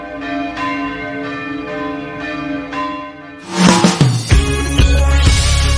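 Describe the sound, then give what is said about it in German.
Church bells ring to accompany the faithful entering the church. Resonant, sustained tones with a few separate strikes give way midway to louder, denser clanging. “wenn der Einzug der Gläubigen in die Kirche von Glockengeläut begleitet wird. Das ist einfach schöner, wenn gescheit geläutet wird.”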